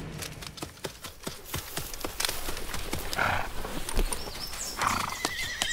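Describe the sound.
Horses at a stud farm clop their hooves in many quick, sharp beats, with a couple of loud whinnies rising over the hoofbeats.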